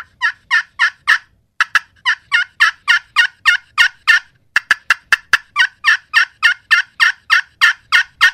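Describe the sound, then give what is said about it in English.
Excited hen turkey yelps made on a turkey call: a loud, barky, rapid string of many sharp two-tone notes in steady rhythm, broken by two short pauses, with no voices. “A real loud, barky, a little bit more emotion to it than just a plain hen yelp”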